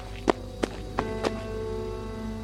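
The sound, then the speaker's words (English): Footsteps of a man running up, used as an audio drama effect: four distinct, quick thuds in an even rhythm over a low steady hum, with quiet after the last one. “A man ran up and whispered something into the captain's ear.”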